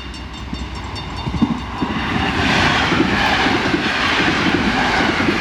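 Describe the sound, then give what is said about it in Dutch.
A freight train passes in the distance, a steady rolling rumble with faint rhythmic clacking of wheels on the rails that swells slightly partway through and then holds. “In de verte heb ik inderdaad vandaag 2 keer een goederentrein zien voorbijrijden.”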